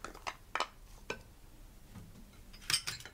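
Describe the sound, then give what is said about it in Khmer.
Utensils clink and scrape against cookware as hard vegetables are mixed together while cooking. The strikes are faint and irregular, with one brighter clink near the end. “រួចយើងច្របល់បន្លែចូលគ្នាគឺយើងច្របល់បន្លែរឹងរឹងចូលគ្នាសិន”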